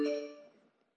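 A phone notification sounds as a single soft chime with bright, bell-like tones that ring briefly and fade out within about a second.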